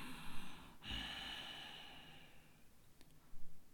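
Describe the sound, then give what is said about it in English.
A raspy, constricted-throat breath drawn through the nostrils, one long, even hiss of air that swells and then slowly fades, faint and alone with no voice. “We will breathe in and out of the nostrils, but will gently constrict the flow at the back of the throat, making a Darth Vader-like sound of”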